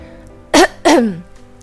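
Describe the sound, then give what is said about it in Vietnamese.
A dry cough: two short, loud, voiced bursts, the second longer and trailing off with falling pitch, followed by quiet. “Triển Chiêu ho khan một cái”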